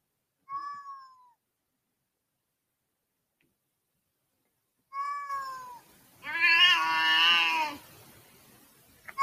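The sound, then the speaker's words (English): A cat meows several times with pauses of silence between the calls. One meow is long and drawn-out, and another begins just as the sound ends. “All right, that's enough cats for now. By the way, this is not a sheep. That's not a sheep. That was not a sheep. That was a cat.”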